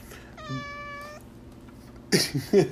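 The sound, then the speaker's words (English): A cat meows for attention with one long, clear, steady-pitched meow, followed by louder, shorter bursts near the end. “that is girlfriend, that is Zach's wonderful cat, and she's awesome. And she's just, she just wants some attention.”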